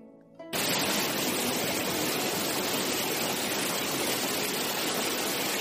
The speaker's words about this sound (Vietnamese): giống như là một con sông ngầm, truyền ra âm thanh dòng nước trút xuống ầm ầm.